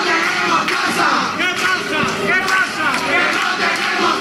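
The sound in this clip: A crowd chants at a housing protest gathering in Jerez's Plaza del Arenal, loud massed voices shouting rhythmic, repeated phrases at a steady level.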